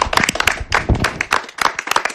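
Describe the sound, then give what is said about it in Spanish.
A small group applauds a radio show team. Distinct hand claps land in an uneven, fairly loud pattern with short gaps between them. “Estáis todas mencionadas en este aplauso que os vamos a dar.”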